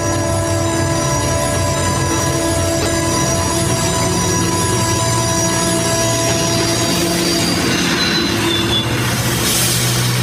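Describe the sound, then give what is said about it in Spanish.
A train approaching and braking, with loud, steady, high-pitched wheel squeal over a deep rolling rumble throughout, and a brief hissing swell near the end. “Mientras el tren se acerca.”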